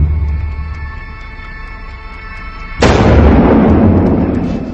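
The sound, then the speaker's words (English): Gunshots fired from the hip at two targets in very quick succession, merging into a single loud, sharp blast with a long rumbling decay. Before it comes a few seconds of low, steady hum. “He just shot incredible. 2 bullets, and I heard 1 shot, and that was it.”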